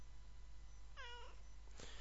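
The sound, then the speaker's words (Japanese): A single short, rising-and-falling meow from a former stray cat, fairly faint over a steady low hum, with a brief soft knock shortly after. “はい、ナオさんもいます。今日は猫の日です。あと勝手にもともと野良猫のナオさんに、”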